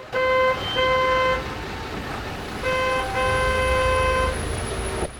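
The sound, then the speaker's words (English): Car horns honk in a gridlocked traffic jam, sounding a few long, steady blasts with a short gap between the first two and a longer pause before the last sustained one. “The road is in gridlock.”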